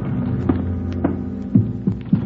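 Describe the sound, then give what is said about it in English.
An elevator going up to the sixth floor of an apartment building: a steady low mechanical hum with a few soft periodic thumps. “We took the elevator up to Tracy's apartment on the sixth floor.”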